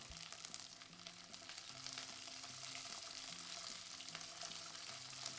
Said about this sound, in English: If it's popping a little bit, we just turn the heat down. I turned it down to a whisper of a flame. That pan is hot, so it's definitely cooking what we have in there.